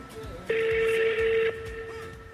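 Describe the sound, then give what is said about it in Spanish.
Telephone ring tone during a call transfer: a single steady, one-second electronic tone at constant pitch that rises clearly above a faint background hum. “Su llamada está siendo transferida.”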